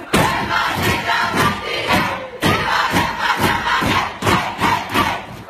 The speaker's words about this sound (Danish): Det er altid fedt med noget godt humør fra omklædningsrummet. Jo, i særdeleshed, når det lyder sådan her.